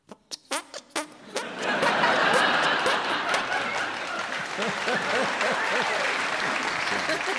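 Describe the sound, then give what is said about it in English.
A few sharp, single hand claps ring out, then a crowd bursts into sustained applause mixed with laughter that carries on to the end. “In order to make a noise, two hands must... be put together thusly.”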